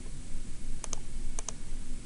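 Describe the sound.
Computer keyboard keys tap out a short entry, about four light clicks arriving in two quick pairs over a steady low hum.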